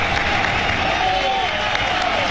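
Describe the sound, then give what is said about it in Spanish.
Applause from the stands at Vallecas football stadium forms a dense, continuous roar of crowd noise and clapping under a commentator's voice. “Aplausos de la grada de Vallecas, pero va a tronar porque va a entrar Álvaro García.”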